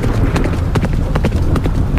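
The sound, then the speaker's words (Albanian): Horse hooves clip-clop on a road, many quick, sharp strikes in a steady trotting rhythm over a dense, noisy background. “Thundrat e kuajve ishin zhurma e vetme që dëgjohej në rrugën për në pallatin e mbretit.”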